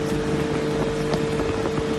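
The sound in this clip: Dune buggy driving across desert sand at night, a loud, steady, wind-like engine roar with a constant droning hum underneath, no voices.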